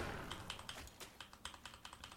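Keys pressed on a computer keyboard during a digital card game, a faint, quick run of many light plastic clicks at an uneven pace.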